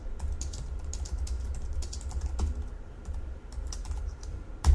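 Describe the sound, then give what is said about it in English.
Code being typed on a computer keyboard: many quick, irregular keystrokes clatter softly and continuously with no voices. “So let's do this. Let's write some more code.”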